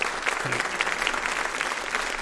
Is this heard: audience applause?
yes